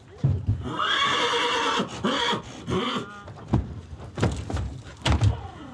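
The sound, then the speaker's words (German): A purebred Hanoverian stallion neighs in a loud, high whinny that trembles and fades, followed by several heavy hoof thuds and knocks from the stable. “Der rein rassige Hannoveraner Hengst ist zurzeit das erfolgreichste Pferd aus dem Stall der Insulanerin.”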